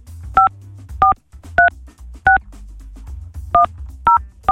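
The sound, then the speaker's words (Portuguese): Touch-tone dialing of a toll-free number: seven short, loud dual-tone beeps in an uneven rhythm, with a longer pause midway, over a low steady hum. “Deixa eu ligar. Não é possível. Vou ligar no 0800.”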